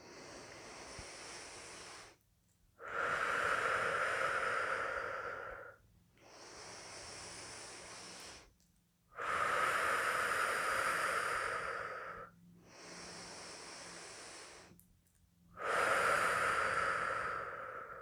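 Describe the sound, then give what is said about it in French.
Slow, deep breathing in and out during an energy-activation breathing exercise: six long, airy breaths, softer intakes alternating with fuller, louder exhales, each lasting a few seconds with short pauses between and no talk. “Inspiration pour activer l'énergie. Expiration pour vivre sa présence en nous.”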